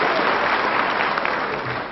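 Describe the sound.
Audience applause, a dense, steady wash of many hands clapping that stays loud and even throughout the short stretch.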